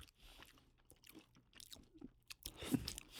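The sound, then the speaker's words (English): Quiet, wet chewing of a salmon roll hors d'oeuvre: a series of soft crunching and squishing bites that grow louder near the end. “we've switched over to the salmon roll. You know, not quite as fancy”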